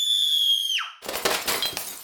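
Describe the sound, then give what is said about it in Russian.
A sharp, piercing scream from the living room holds a steady high pitch, then drops steeply and breaks off into a loud crash of shattering glass, with scattered shards tinkling and clattering afterward. “И сразу вслед за ним раздался звон осколков.”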